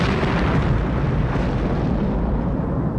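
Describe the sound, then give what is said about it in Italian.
A deep, dense roar from a 500 kg TNT bomb blast on the Palermo–Mazara del Vallo motorway. It fills the whole clip as a loud, steady rumble with no sharp onset and no voices. “500 kg di tritolo esplodono sull'autostrada Palermo-Mazara del Vallo”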